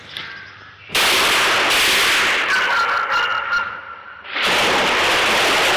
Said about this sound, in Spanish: Alzan sus pistolas. ¡Fuego! Se dan la vuelta.